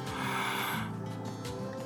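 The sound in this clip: A slow, deep breath is drawn as a soft, airy rush of breathing noise lasting about two seconds. It stays faint and even throughout, with no talking over it.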